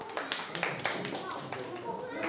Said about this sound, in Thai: ปรบมือให้กลุ่มนี้ครับ